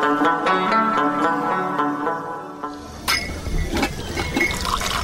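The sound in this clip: Tea being poured into a drinking glass: a steady filling stream with a ringing tonal note, followed by rougher, splashier pouring toward the end, with no talk.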